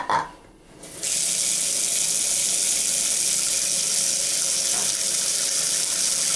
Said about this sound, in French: Donc là, je suis dans ma salle de bain, devant l'évier qui ne s'écoule pas comme il faut.